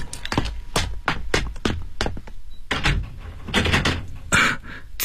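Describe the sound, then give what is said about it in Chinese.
A door being opened: a quick series of sharp knocks, clicks and thuds, irregular in rhythm, building to a louder rattling clatter near the end. “丁警官来了， 开门。 我去开门。”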